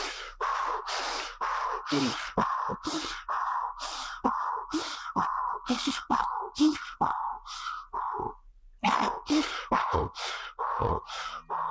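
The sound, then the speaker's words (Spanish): Forceful breaths blown out with the diaphragm while lowering the arms in a breathing exercise come as many sharp, breathy bursts in quick succession, loud and strongly rhythmic. “Y cuando bajamos, con el poder del diafragma, vamos a soplar así. Esto lo vamos a hacer 10 veces”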